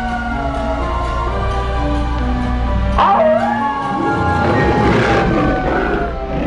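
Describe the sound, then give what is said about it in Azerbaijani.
Wolf howling, long drawn-out wavering cries with sliding pitch, loud and sustained over steady tonal sounds underneath. “Buz canavar başladı ulamağa, canavar uladı başın buladı”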